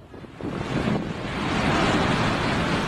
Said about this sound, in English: It's the sound of water. A lot of water. And it's water being released from the Lakdo Dam in Cameroon.